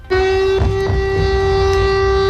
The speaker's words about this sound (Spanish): Sonaban las sirenas antiaéreas en la capital ucraniana.